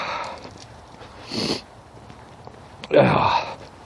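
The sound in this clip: A person sniffs and then snorts, two short breathy bursts a little apart, the second louder and longer.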